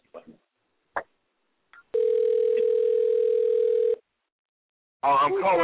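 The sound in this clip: Telephone dial tone while a call is placed: a single steady low hum lasting about two seconds, preceded by a few brief clicks and faint sounds, and followed by a voice starting to speak.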